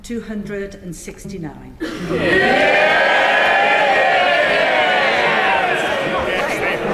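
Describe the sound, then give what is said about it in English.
MPs in the House of Commons cheering a vote result: a single speaking voice first, then a sudden loud roar of many voices that swells and holds to the end. “They're cheering a majority of 18. Why are you cheering?”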